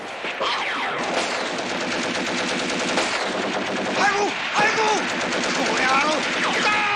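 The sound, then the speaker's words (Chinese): Machine-gun and rifle fire in a battle: dense, rapid bursts of shots crackle almost without pause, loud and sustained throughout. “我八路军的机枪、步枪、手榴弹像雨点般的泼向敌人，打得敌人来回乱窜，死伤一片。”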